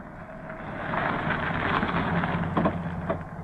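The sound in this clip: A taxi car pulling up: a broad engine rumble and road noise that grows louder toward the middle and then holds steady, with no voices.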